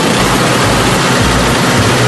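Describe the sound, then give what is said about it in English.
Snow blower engine running: a loud, steady, dense roar with a faint low throb pulsing beneath it, unbroken for the whole clip. “How about this new snow blower plus super fast ice melt for the sidewalks?”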